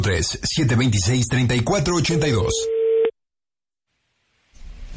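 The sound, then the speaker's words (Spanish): A telephone busy tone follows a hang-up during a prank call on a Spanish-language radio show. The steady mid-pitched tone starts under fast talk, then briefly sounds alone before cutting to silence. “¿Por qué colgó el teléfono?”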